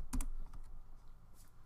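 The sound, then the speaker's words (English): Brief, quiet burst of typing on a computer keyboard: a few quick clicks at the start, then faint scattered taps. “Let me write it in chat so nobody fucking forgets.”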